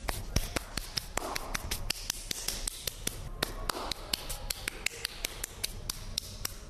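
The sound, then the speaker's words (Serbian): Sand-covered hands being shaken and clapped clean at the end of a sand workshop: many sharp, dry taps in a fairly regular rhythm, moderately quiet and without talk. “Pa mi zovemo peščani aplauz na kraju svake radionice, tako istresamo ruke i skinemo pesak koji između ostalog neke puta od naletrisanja hoće da se zalepi između prstiju i onda tako bukvalno aplaudiramo pesku.”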